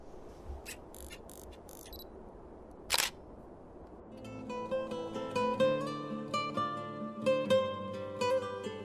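A single sharp camera shutter click snaps once against a quiet background. Soft melodic music with sustained tones follows.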